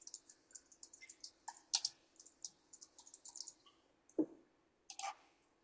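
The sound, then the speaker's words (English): Typing on a computer keyboard: many quick, light clicks and taps in an irregular rhythm, fairly faint, with a short pause before a few final keystrokes. “I'll just type it in. It's easier,”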